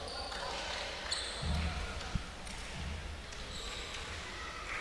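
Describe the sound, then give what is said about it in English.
Low thuds of a basketball dribbled by a player before a free throw in a girls' high school game, a few soft bounces under steady crowd murmur and gym noise. “dribbling with her right hand.”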